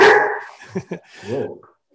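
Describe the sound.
A dog barks a few short, sharp times in quick succession, then lets out a longer, more tonal bark that fades away.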